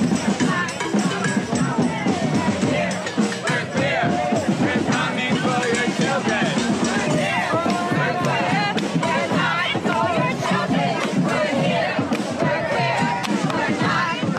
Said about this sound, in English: That is the sound of a chant. We're here, we're queer, and we're coming from your children. It's about 2 weeks ago at a Pride event in New York City.